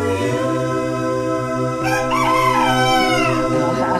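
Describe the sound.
A rooster crows once, a long, harmonic-rich call that rises over a steady tonal background and holds loud for nearly two seconds.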